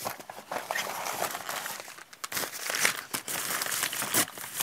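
A chocolate wrapper crinkles as it is unpacked, with a continuous crackly rustle full of many sharp, crisp bursts at moderate volume and no talk.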